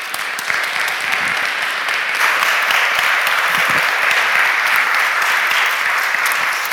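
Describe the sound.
Sustained applause from an audience welcoming a speaker onto the stage: dense, steady clapping that holds at an even, fairly loud level from start to finish.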